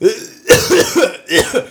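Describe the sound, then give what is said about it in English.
Harsh coughing from a person with a developing cough: a few loud, raspy bursts in quick succession, with no talking. “Sorry, I'm getting a bit of a cough.”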